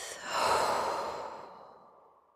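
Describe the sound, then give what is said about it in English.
One long, airy breath from a breathing exercise, drawn in through the nose and let out through the mouth, swelling quickly and then thinning into a soft, fading hiss, alone and fairly faint. “Now begin to breathe in for those eight strokes through your nose. Breathe out for one through your mouth.”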